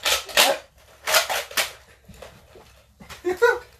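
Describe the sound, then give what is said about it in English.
Toy foam-dart guns fire in a mock standoff: a few sharp, snappy pops come in uneven bursts, some clustered close together, with gaps of quieter rustling between them and voices joining near the end. “They're like on a standoff right now with two guns. They're trying to shoot each other.”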